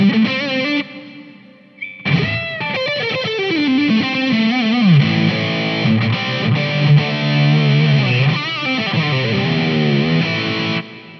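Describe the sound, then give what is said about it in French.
Distorted electric guitar through a JVM amp on the neck pickup, with the reverb switched on at an effects unit: sustained, ringing notes and gliding bends that play continuously, loud and alone, with tails blurring into one another. “Je veux mettre de la reverb. J'appuie tout simplement sur la reverb.”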